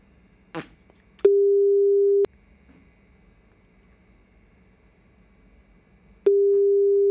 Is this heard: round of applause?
no